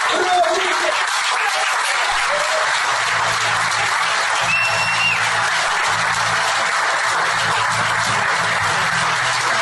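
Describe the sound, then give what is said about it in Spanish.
A stand-up comedy audience applauds a performer with sustained, even clapping that holds at a loud, constant level for the full stretch, with a faint low hum beneath the crowd. “Un aplauso al compañero Emanuel Ro.”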